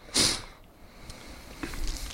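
A short, sharp sniff as someone smells a drink to pick out fruity notes, followed by quieter, faint breathy sounds.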